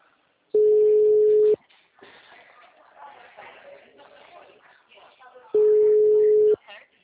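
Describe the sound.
Telephone ringback tones on an outgoing call: two long, steady mid-pitched tones, each about a second, separated by a pause of several seconds in which a person talks.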